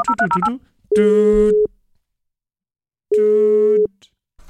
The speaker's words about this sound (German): Ich glaube, ich muss Herrn Lex anrufen.